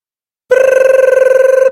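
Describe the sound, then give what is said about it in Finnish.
Telephone bell ringing frantically near midnight in a ghost hunters' office: a loud, steady bell tone with a rapid trill of many quick pulses, sounding once for just over a second with no talk. “Kello lähestyi puolta yötä, kun puhelin alkoi soida vimmatusti ajaksi haamun karkottajien toimistolla.”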